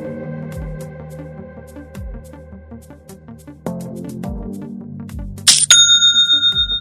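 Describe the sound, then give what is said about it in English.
An online store's sale notification chime: a bright, bell-like ding with a pulsing, ringing tail near the end, after soft music with plucked notes and low bass. “Don't you just love that sound? It's the sound of another sale on Shopify”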